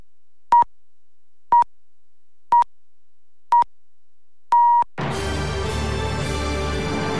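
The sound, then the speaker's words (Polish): Noon time signal on Polish Radio's Program Three: four short, evenly spaced high beeps about a second apart, then a longer fifth beep, immediately followed by a dense, continuous sound. “Wybiła 12. Program Trzeci Polskiego Radia.”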